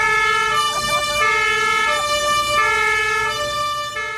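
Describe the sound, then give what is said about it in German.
A vehicle engine drones with a steady, strongly tonal whine. It stays loud and sustained throughout, with a few slight dips in level. “Das ist ein Motorengeräusch.”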